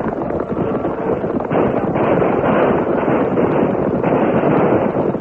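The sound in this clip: Rifle gunfire from cavalry troopers firing at will as they charge into battle: a dense, loud, continuous barrage of crackling shots blurs into one sustained roar, with no single reports standing apart and no voices.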